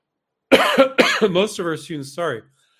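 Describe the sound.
Coughing and throat clearing: a few harsh, raspy bursts with voiced, gravelly sounds, loud and alone after a short silence.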